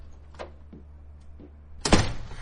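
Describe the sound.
A door is opened as someone storms out. A few faint knocks come first, then one loud thud near the end.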